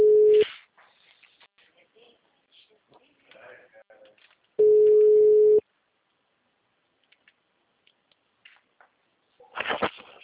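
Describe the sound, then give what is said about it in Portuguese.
Telephone ringback tone from a call that goes unanswered: a short steady mid-pitched tone, then a longer one about four seconds later, with faint clicks and rustles in between and a brief noisy burst at the end. “Ligação, ligação. Ninguém me atende hoje.”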